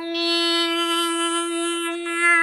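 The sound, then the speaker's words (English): A voice imitates the NASCAR race sound played through trackside speakers: one sustained, buzzing engine drone held at a constant pitch with no Doppler shift. “because wherever they are, that's the sound of the race.”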